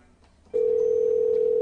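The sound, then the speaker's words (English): A telephone tone on an outgoing call: after about half a second of faint line hiss, a single steady mid-pitched tone begins abruptly and holds evenly to the end. “Maybe it forwards. Maybe I'm reaching Google Voice and it rings several phones at once.”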